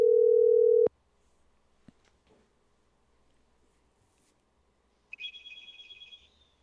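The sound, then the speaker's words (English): A steady telephone dial tone plays briefly while a call is placed, then stops with a sharp click. A few faint clicks follow in near silence, then a higher, warbling ring tone sounds. “All right, let's give Dan Francis a call, see who he's up to.”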